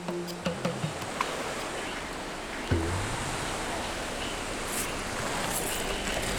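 Waves wash onto the shell-covered Lake Michigan shore at Harrington Beach State Park in a continuous, rushing surf noise, with a few light clicks near the start and an even, unbroken roar after that.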